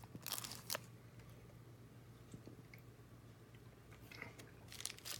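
Someone bites into and chews a peanut and pumpkin seed bar. Faint crunchy bites come at the start and again near the end, with softer, moist chewing and crackling in between and no talk.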